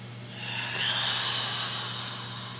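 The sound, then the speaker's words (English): A slow, deep inhaled breath during a meditation, a soft airy rush that swells and then holds steady, faint and alone. “Inhale, take a deep breath.”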